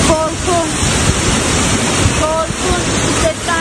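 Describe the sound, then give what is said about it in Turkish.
Floodwater rushing through city streets after heavy rain, strong enough to sweep away parked cars: a loud continuous roar of churning water with wind buffeting the microphone, and faint voices now and then above it. “Yollar su altında kaldı. Park halindeki araçlar bile akıntıya dayanamadı.”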